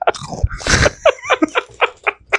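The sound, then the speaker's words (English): Crunchy Combos snacks in pepperoni pizza flavour are bitten and chewed in many crisp, crackling crunches that follow one another in a fairly steady rhythm. “Don't mind me. Here come the combos. Combos. Delicious.”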